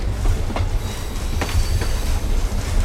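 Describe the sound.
A passenger train rolls along with a steady low rumble. A few sharp clicks come from the wheels passing over rail joints, over a thin high hiss, with no voices.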